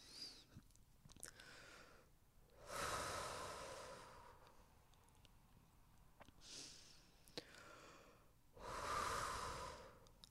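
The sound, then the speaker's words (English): Slow, deep breathing during a guided eyes-closed meditation exercise: a few long, airy breaths, each swelling and fading, separated by quieter pauses, faint and without talk. “So close your eyes with me and we'll take a couple deep breaths.”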